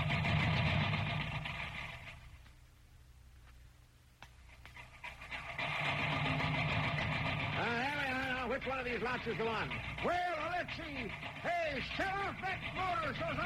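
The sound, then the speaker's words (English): Tractor motor running with a low, steady mechanical drone that dips for a few seconds and then returns, and voices talk over it in the later part. “Hey, shut off that motor so I can hear you. Shut off that darn motor.”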